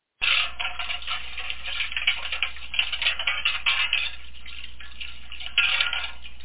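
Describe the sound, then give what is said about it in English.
Metal plates are washed in a metal tub on a wood stove, with constant busy clinking, scraping and splashing water, a dense clatter running throughout over a faint low hum. “Which, if you don't know, is the sound of washing metal plates in a metal tub on a wood stove.”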